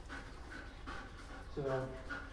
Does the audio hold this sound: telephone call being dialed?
no